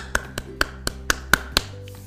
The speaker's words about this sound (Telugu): సెబాష్ claps